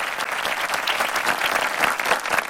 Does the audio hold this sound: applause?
yes